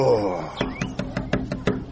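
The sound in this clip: Knuckles rap on the door of a hujra in a rapid, evenly spaced series of sharp, moderately loud knocks, after a voice speaks briefly.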